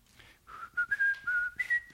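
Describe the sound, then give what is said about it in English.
A person whistles a tune, holding clear, pure notes that step up and down in pitch in a short, smooth phrase, fairly soft and alone. “But did you ever stop and think how you can whistle a tune?”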